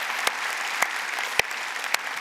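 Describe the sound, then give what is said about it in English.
A church audience applauds newly baptized people during a Sunday service. The dense, steady clapping holds throughout, and a few sharper individual claps stand out above it. “Can we make some noise for those folks who just got baptized and say, we love you. Welcome to the family.”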